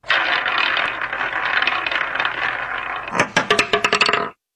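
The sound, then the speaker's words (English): A roulette wheel spins with a steady rattling whir for about three seconds, then the ball bounces in a quick burst of sharp clicks before the sound stops abruptly. “We put it on a roulette wheel. Lloyd spins that wheel, and wherever that ball lands is what we end up talking about.”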